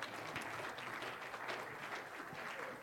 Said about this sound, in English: If you would welcome our guests, our panel of speakers as they come up, because they're out of their element. Give them a hand, right?